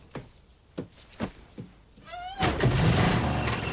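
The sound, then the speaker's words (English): A car door and a car pulling away from the curb: a few sharp clicks and thuds, then a brief whine gives way to a loud, steady engine roar that carries to the end. “Outside, Charlie gets into his car parked by the curb.”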